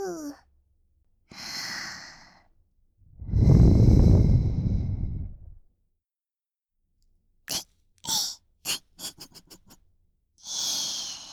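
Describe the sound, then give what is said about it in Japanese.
Breath blown into someone's ear: a few soft, airy puffs, then one long, strong, rushing blow, followed by a quick run of short mouth clicks and a final breathy puff. “耳に息を吹きかけられるの、そんなにびっくりしちゃった？”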